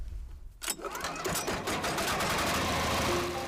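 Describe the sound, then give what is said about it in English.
A grinder processing prosopis tree into powdered animal feed starts up abruptly after a short quieter moment, then runs as a loud, steady mechanical roar with a fast rattling texture throughout. “After collecting the prosopis, the villagers feed it into the grinder. The result? Nourishing powdered food for the animals.”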